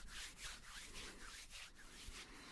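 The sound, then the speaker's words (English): Hands rubbing back and forth against each other during a hand massage, a soft, steady series of many rhythmic swishing strokes, faint and with no talk. “I'll just sandwich one of your hands between mine. And I'll just work it back and forth.”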